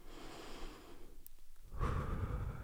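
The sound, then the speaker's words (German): A person taking a deep breath: soft breathing that thins to a brief pause, then a fuller, airy breath swells and carries on to the end. No one speaks. “Ich atme mal kurz durch.”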